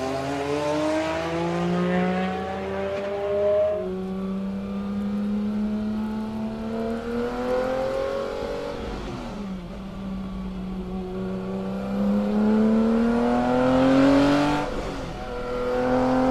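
A tuned Wartburg car engine revs alone, its loud droning note climbing steadily in pitch, dropping sharply, then climbing again before falling away near the end.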